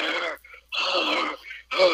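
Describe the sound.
A voice imitates heavy breathing, as though someone walking about were panting: a few long, breathy, hissing exhalations separated by short silent gaps, fairly loud and heard alone.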